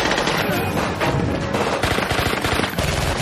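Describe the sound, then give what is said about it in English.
Dense, continuous gunfire from HK and Glock pistols as television action sound effects, with rapid overlapping shots that keep up a loud, unbroken clatter from start to finish. “That guy had an HK. That's a Glock 10.”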